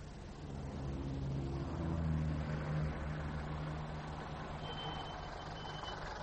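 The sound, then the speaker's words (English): A taxi pulling up on a street, heard as a steady low engine rumble with a slight swell in the middle, continuous throughout with no voices. “Oh, a taxi. That was lucky.”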